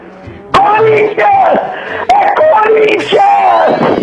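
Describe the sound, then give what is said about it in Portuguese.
A man screams loudly at a football stadium: several drawn-out, strained yells, one after another, punctuated by a few sharp slap-like hits. “Você não gritou esse alto.”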